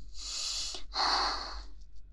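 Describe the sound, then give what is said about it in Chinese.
Heavy breathing from a person lying with their head in someone's lap: two long, breathy rushes of air, a drawn-out inhale-like breath, then a brief pause and a louder, fuller breath that fades out. “我的呼吸怎么了？我的呼吸有什么问题吗？”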